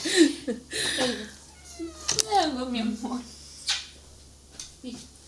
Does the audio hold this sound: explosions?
no